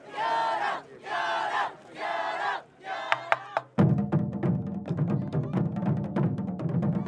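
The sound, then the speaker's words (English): A traditional Japanese taiko drum group opens a memorial ceremony beside a cemetery. Four long shouted calls are followed by a few sharp strikes, then dense, loud, rolling drumming. “traditional Japanese drum group from UCLA, Thunders, open the ceremonies.”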